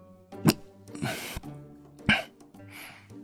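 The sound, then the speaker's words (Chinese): People cough in a heated chamber after choking on tea. There are a few rough, uneven coughing bursts, some sharp and some drawn out, each with a short gap before the next. “预设呛了一口茶，同时间半个暖阁的人一起咳了起来。”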